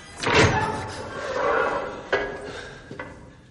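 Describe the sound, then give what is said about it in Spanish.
A door opening in a science-fiction film scene: a breathy, hissing sweep with a couple of sharp mechanical clunks after it, and no voices. “Se abre la puerta.”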